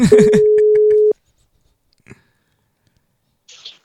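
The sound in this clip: A telephone call goes unanswered, with a steady, mid-pitched ringback tone that lasts about a second over brief talk and then cuts off into near silence broken by a couple of faint clicks.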